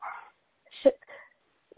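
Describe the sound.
A dog gives one brief, sharp bark, a short yip that stands alone between quiet gaps, with faint voice sounds at the start and end.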